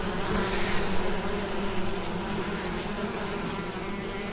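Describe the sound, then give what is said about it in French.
Honeybees buzz around a beehive outdoors, making a dense, continuous, loud hum of many insects that stays steady throughout. “on voit toutes les petites abeilles.”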